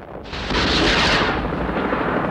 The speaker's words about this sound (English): Two marine helicopters fire missiles at the platform. Explosions blossom on the rig's surface.